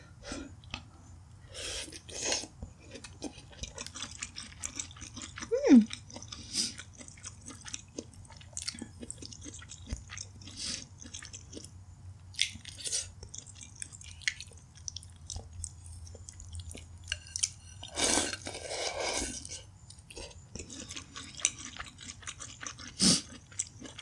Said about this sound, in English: gonna eat all my stir fry. And there's not much left of it anyway,